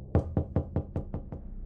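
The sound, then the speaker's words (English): Seven quick, evenly spaced knocks land on a heavy wooden door, each a dull, solid thud, heard alone in a steady run. “There came the second series of knocks.”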